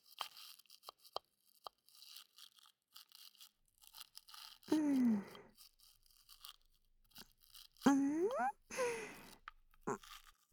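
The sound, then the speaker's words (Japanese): A toothbrush scrubs teeth in faint, scratchy strokes, with soft scrapes and small clicks scattered throughout and a voice speaking gently at a couple of moments. “歯ブラシだと磨きづらいわね。横だとうまいこと磨けないし。”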